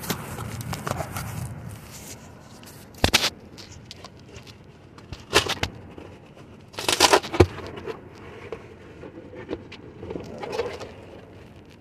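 Tearing at a shipping package's rip strip with a label stuck over it: a few short, sharp ripping bursts separated by quiet handling and rustling.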